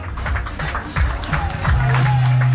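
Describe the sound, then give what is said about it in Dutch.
A crowd applauds a runner finishing a race, a rough wash of clapping with a voice talking over it. “En u kan rustig door blijven klappen hoor”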